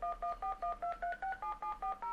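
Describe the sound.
Touch-tone keypad beeps as a telephone number is dialed to call a guest, eleven short dual-tone beeps in a quick, even sequence with small shifts in pitch, soft and alone without talking.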